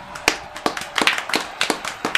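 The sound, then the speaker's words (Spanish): Scattered, irregular hand claps from a small audience after a tango performed with accordion, sharp distinct slaps rather than a dense wash, spread unevenly across the moment. “Aplauso.”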